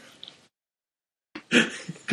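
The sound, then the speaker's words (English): A person snorts: a faint, brief nasal burst, then a pause of silence, followed by a louder rough snort and a couple of shorter puffs of air. “Did you just snort? Yes.”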